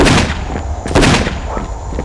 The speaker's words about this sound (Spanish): ¡Cuidado, cuidado! ¡Los francos están disparando!